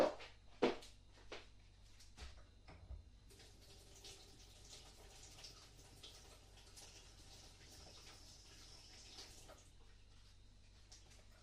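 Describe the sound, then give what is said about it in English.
Faint running water from a sink tap while something is wetted, a soft, steady rush that follows a few light knocks at the start. “Okay, let me just wet my boob over at the sink.”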